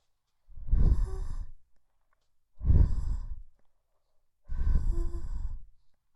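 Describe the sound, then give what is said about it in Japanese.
Soft breathy blowing into the ear in a Japanese ASMR session: three gentle puffs of air, each about a second long with a low rumbling gust, separated by short silences. “はい、お耳ふーってしますよ。”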